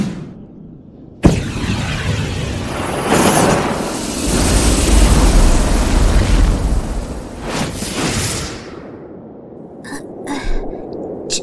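A roaring fire blast engulfs a book thrown into the air, bursting in with a sharp onset and surging into a loud, sustained rush of flame for several seconds before easing into a few short, sputtering bursts.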